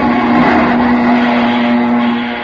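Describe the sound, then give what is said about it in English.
A single aircraft engine drones steadily and loudly, with a sustained hum running through it, on a warplane that has damaged aileron and tail control cables. “Shut off that engine, Sammy.”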